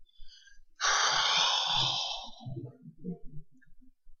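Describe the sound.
A deep exhaling breath: one long, breathy rush of air starts abruptly and fades away over about a second, followed by faint low clicks and mouth sounds.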